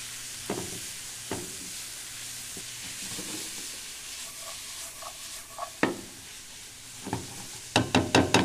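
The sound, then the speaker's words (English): Onions, celery and jalapeno sauté in a pan over medium to medium-high heat. A steady soft sizzle runs throughout, broken by a few knocks and scrapes of stirring, with a quick run of stirring clatters at the end. “We just need to kind of start to sweat them. And while those are sauteing, we're going to get our fresh herbs ready to go.”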